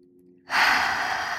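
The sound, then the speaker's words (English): A deep breath taken by a person: one long, airy rush of breath that swells quickly from silence and holds steady, loud and alone with no talk. “I want to invite you to take a deep breath really quick with us, because I don't know about you, but I really need one of those right now. So inhale.”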